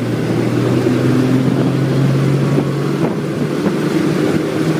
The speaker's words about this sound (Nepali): बस त्यसपछि स्याङ्जाको बाटो हुँदै सुनौलीतिर हुइकियो।